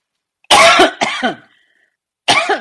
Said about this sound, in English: I have a cough. I don't think it's COVID, but I have a cough.